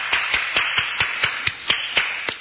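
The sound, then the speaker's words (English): A lone person claps at a theater after a play, a steady, evenly spaced run of sharp, bright claps at a brisk tempo, each one distinct with no crowd joining in. “Joseph Marion was the only one applauding, but the stage behind him was filling up.”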